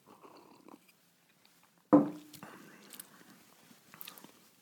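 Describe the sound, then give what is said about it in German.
Sipping a Campari and whisky drink from a whisky tumbler with melted ice: faint, soft sipping and mouth sounds, then one sharper, louder burst midway before quieter noises return. “auch in so einem Whisky Tumbler und meine Eiswürfel sind leider schon geschmolzen, aber ich glaube, der ist auf jeden Fall aussehenstechnisch top. Geschmack, dann nehme ich jetzt nochmal einen ordentlichen Sip.”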